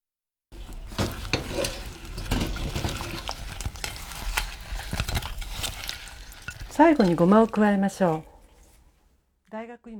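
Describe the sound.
Fried mixed ingredients are stirred into syrup in a pot, making a steady scraping, sizzling rustle with many small knocks, before a voice speaks briefly near the end.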